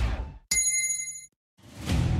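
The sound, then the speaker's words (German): A single clear gong stroke signals a hydration break, bright and bell-like, ringing for about a second before cutting off, with denser sound before it and after a short silence. “Der Gong. Hydration Break.”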